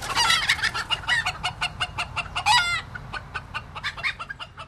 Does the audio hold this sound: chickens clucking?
yes